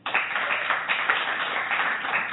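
Audience applause at a college campus event, many hands clapping in a dense, steady patter that holds at an even loudness for about two seconds.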